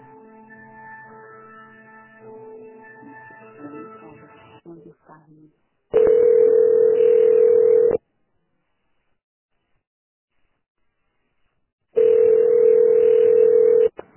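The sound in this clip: A telephone ringback tone plays while a call is transferred, two long, steady, mid-pitched tones of about two seconds each separated by silence, following a short stretch of voice at the start.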